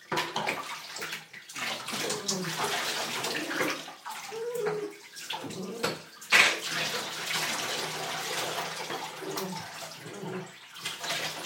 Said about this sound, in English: Hold on, I'm going to rinse it.